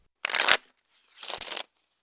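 Fingers shuffling playing cards at a card table, two short, crisp riffling bursts split by a brief pause, fairly quiet with silence around them.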